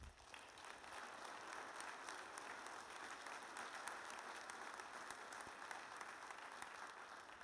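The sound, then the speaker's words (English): Faint, steady applause from a church family service audience welcoming a speaker to the stage, a dense patter of many hands holding at an even level throughout without a break. “You guys could have clapped longer. It made it a little less awkward.”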